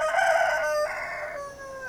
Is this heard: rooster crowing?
yes